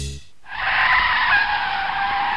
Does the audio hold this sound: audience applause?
no